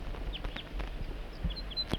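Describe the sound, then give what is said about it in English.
Wild bird calls recorded near a snag at Table Mountain: several short, high, faint chirps scattered over a steady low background rumble. “Start recording the wild bird and 4-3.”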